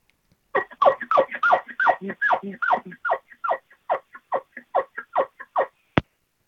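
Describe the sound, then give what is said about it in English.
A quiet elk chuckle made on an elk call by a hunter: many short, descending grunting notes in a steady, relaxed cadence. They fade slightly toward the end, which closes with a sharp click. “The next scenario that I prefer myself is the chuckling one. And I'll just do a little chuckle here for you.”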